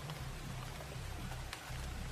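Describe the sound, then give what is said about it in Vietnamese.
Heavy rain and strong wind at a river's edge, with waves driven against the bank. A dense, continuous hiss sits over a low rumble, unbroken throughout. “nhìn những con sóng đập vào bờ vì mưa và gió lớn”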